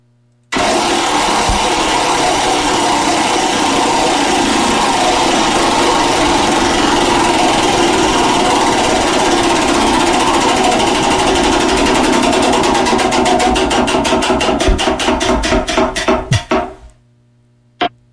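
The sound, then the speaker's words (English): A prize wheel is spun, and its pointer gives off a loud, rapid stream of clicks that stays dense for about twelve seconds. The clicks then slow into distinct, widening ticks before the wheel stops. “Let's see what the wheel has to say once again as we give it a spin.”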